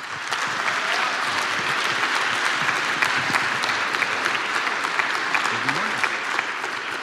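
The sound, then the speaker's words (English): Audience applause at a chapel service welcomes a guest speaker: dense, steady clapping from a crowd lasting the whole stretch, with some voices mixed in. “Can you join me in giving our brother Bill a warm Raider welcome?”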